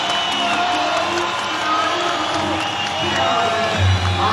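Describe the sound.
Concert audience applauding and cheering for a band from England. A loud, dense, continuous roar of clapping mixes with shouting, cheering voices throughout.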